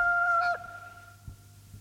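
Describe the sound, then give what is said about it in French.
A hoarse rooster crows from a farm in a single short, steady call that is loud for about half a second and then drops off sharply, leaving a faint lingering hum. “Le chant du coq enroué monta d'une métairie.”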